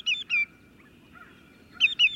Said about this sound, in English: True to their name, greater yellow legs are shorebirds with bright yellow legs and feet.